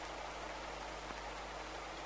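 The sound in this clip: Rain falling at night, a faint, even, unbroken hiss with no distinct drops standing out, continuing steadily throughout.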